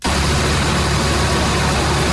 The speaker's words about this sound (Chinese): 在安徽宣城郎溪县建平镇的再生稻田里，收割机开足马力穿梭，切割脱粒装车一气呵成。